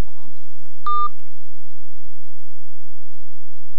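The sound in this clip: A single short electronic telephone tone, like a keypad beep, sounds once and briefly over a faint, steady hiss.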